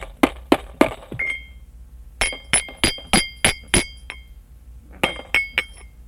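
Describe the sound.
Sharp tapping with a bright, glassy clink rings out in three bursts of quick taps separated by short pauses. Each strike is crisp and loud and leaves a brief ringing tail.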